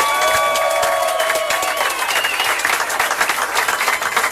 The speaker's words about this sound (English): Oh, we got a little standing O going as well.